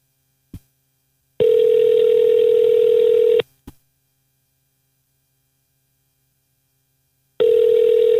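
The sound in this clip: Ringback tone of an outgoing telephone call: two long, steady mid-pitched rings of about two seconds each, separated by a silent gap of about four seconds, over a faint mains hum, with a couple of brief clicks between them.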